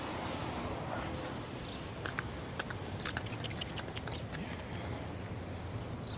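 Soft clip-clop of donkey hooves as the animal walks with a rider on its back. A few light, irregular taps rise out of a faint, steady background noise, with no talking.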